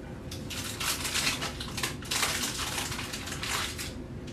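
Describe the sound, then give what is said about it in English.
A serrated bread knife sawing a brioche bun in half, a soft rasping scrape that repeats in several back-and-forth strokes at a moderate, even pace. “Then we're gonna get one of our brioche buns and cut them in half. Best if you use a bread knife for this.”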